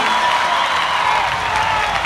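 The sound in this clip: Crowd applause and cheering for a band on stage at a concert, a dense, unbroken wash of clapping and crowd noise that holds at a steady, loud level throughout.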